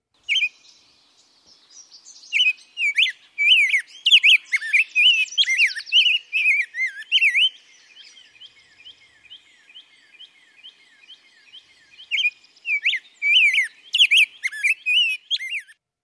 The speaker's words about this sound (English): A colorful bird that Ohioans might find munching on seed at the bird feeder is rose-breasted grosbeak. It's a good way to find rose-breasted grosbeaks is to listen for them. Let's hear a bit.